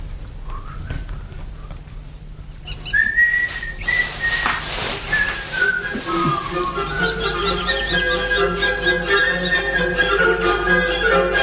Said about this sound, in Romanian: Data aceasta nu vei auzi decât fluieratul meu.